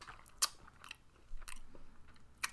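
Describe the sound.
Chewing on a bite of coffee macaron: a few sharp, crisp crunches stand out above softer, faint mouth sounds, with no talking.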